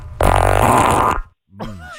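A loud, brassy fart during a guess-whose-gas game buzzes and rumbles steadily for about a second, then stops sharply. After a short silence, a brief voiced sound follows.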